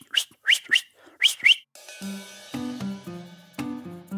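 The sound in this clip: A dog training run whistle gives a quick series of about five short, high, shrill pips in a rapid rhythm. Softer, lower tonal sounds follow, with no talk.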